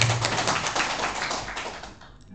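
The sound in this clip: Audience applause at a regional union conference in Jakarta, a dense rush of many hands clapping that holds steady and then tapers off near the end.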